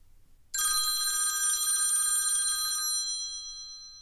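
An old-style telephone bell rings as someone phones friends to invite them to dinner. It gives one bright, metallic burst for about two seconds, then fades out, with no other sound.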